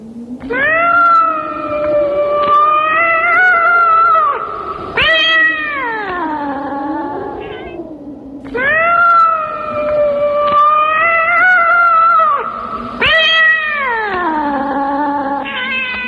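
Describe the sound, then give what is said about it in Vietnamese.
A lame cat wails desperately in long, loud, drawn-out yowls. It cries in two extended phrases, each ending with a downward slide in pitch, with no talk. “Con mèo không ngớt kêu gào tuyệt vọng, tiếng kêu ướm máu như đang khổ sở cầu xin cái bia kia tha mạng.”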